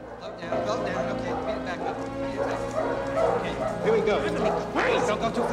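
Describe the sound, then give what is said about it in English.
Several dogs of different breeds, including a large black Labrador, bark, yip and whimper from rows of metal pens in a dimly lit pet supply building. The barking is continuous and overlapping, with voices mixed in. “Within the dimly lit building, rows of metal pens contain a variety of different breeds of dog.”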